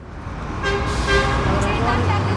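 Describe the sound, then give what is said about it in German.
Rush-hour traffic at a central four-lane square in Addis Ababa, Ethiopia, a steady roar of engines with a car horn honking several times, while a voice talks underneath. “Feierabendverkehr an einem zentralen Platz in Äthiopiens Hauptstadt Addis Abeba. Auf vier Spuren verteilen sich die Autos hier in jede Richtung.”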